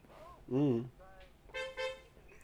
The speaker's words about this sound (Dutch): Ja, dat was een klakson, denk ik, van een auto of zo.